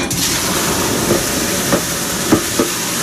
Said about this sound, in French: une huile qui a bien le goût du romarin. Voilà, qui a pris le temps d'infuser. Exactement. Et on va griller les gnocchis là-dedans.